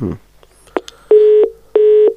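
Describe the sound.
Telephone tone on a line just after a listener's call is cut off: a brief burst of voice and a click, then two steady, evenly spaced beeps, loud and clear.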